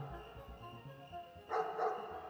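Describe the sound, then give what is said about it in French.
Hunting hounds barking: two quick, sharp barks close together near the end, faint, after a stretch of low murmuring background sound. “Pendant qu'il hésite, ses chiens l'ont aperçu. Et d'abord, Mélampus et le sagace Harpalos l'ont signalé en aboyant.”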